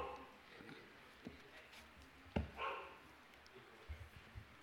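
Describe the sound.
A dog barks faintly during a church sermon gathering, one sharp bark that stands out with a brief rougher follow-up, while a few softer thuds pass in an otherwise quiet background.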